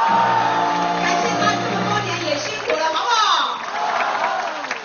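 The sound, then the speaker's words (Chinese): Crowd cheering and applause at an overseas campaign rally for Taiwan's presidential election, greeting the vice president. Dense clapping mixes with shouts and whoops, and a loud voice rises above the steady crowd noise throughout. “我们给副总统再次掌声鼓励，好不好？”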